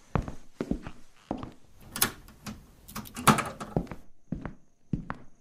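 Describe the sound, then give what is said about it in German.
A door being shut and locked: a string of sharp clicks and dull thunks of varying loudness, with brief quiet gaps between them. “Ich schließe mal lieber die Tür ab.”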